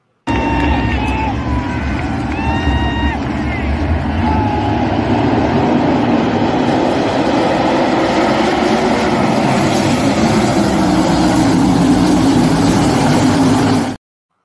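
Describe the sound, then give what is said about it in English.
Engines of race cars at a local dirt racetrack drone loudly and continuously. A voice is briefly heard early on, and the roar grows brighter and fuller toward the end before stopping abruptly. “going to a racetrack last night, and I figured I would bring back some videos and tell you I approve this message. Support your local dirt track, all right?”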